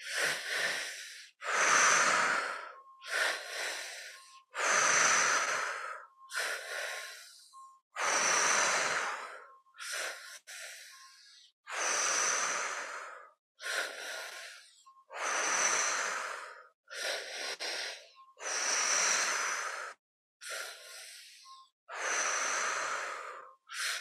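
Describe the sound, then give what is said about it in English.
Slow, deep breathing in and out during a relaxation exercise: many long, airy breaths in an even, unhurried rhythm, each separated by a short silence, with no talking. “letting the breath do the work in and out of the body”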